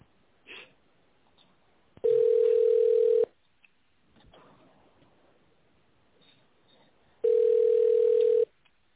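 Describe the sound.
Two long, steady telephone line tones play while a call is transferred, each lasting about a second. Long stretches of faint line hiss fill the gaps between them.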